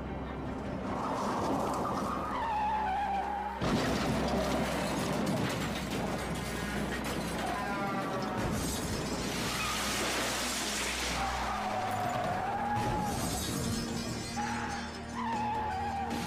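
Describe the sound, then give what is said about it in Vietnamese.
A car loses control, skids and crashes into a roadside barrier before a bridge: a dense, continuous clatter of grinding, rattling mechanical noise with crunching impacts runs loud and steady for the whole stretch, with no talking. “Trước khi lên đến cầu Tân Đệ, xe của Duy mất lái lao vào làn chắn, toàn bộ chiếc xe đâm thẳng rồi rơi xuống sông hầm”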